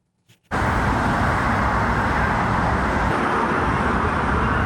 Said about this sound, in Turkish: Aynı zamanda o çevrede yoğun araç trafiği de var.